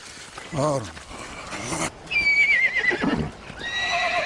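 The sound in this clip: Shrill whinnies of a young colt: a loud, wavering neigh that quavers and falls in pitch, with another high call rising near the end.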